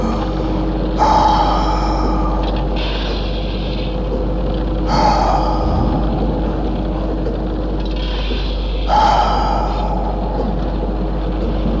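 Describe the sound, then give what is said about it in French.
Slow, heavy breathing: three long breaths spaced about four seconds apart, each a loud airy rush over a steady low hum, with no talk. “Respiration.”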